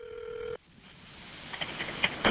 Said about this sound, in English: After the caller hung up, the dispatcher called the number back only to go straight to voicemail.